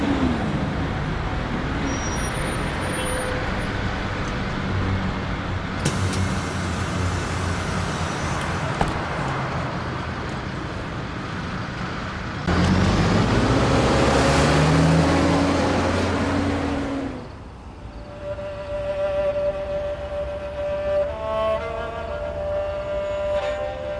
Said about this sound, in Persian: ببخشید اتوبوس سره میاد، من دیگه باید برم.